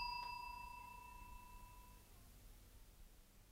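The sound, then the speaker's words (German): A bell whose clapper tends to jam gives a single clear ring that fades slowly, faint and alone. “Die Glocke. Das hat nichts zu sagen. Der Klöppel wird sich wieder festgeklemmt haben.”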